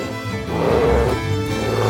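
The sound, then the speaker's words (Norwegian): A bear roars while reared up on its hind legs, swiping its paws at hunters after a bullet grazes it. The roar is a loud, continuous, low and rough growl that holds steady for about two seconds. “seg opp på to ben og brøler til dem mens det fekter med labbene. Kompisen til Tølløv skyter først, men kula streifer bare bjørnen.”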